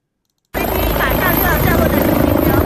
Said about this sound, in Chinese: 上午11点半，一架救援直升机稳稳地落在新开诊的北大人民医院通州院区西南侧的停机坪上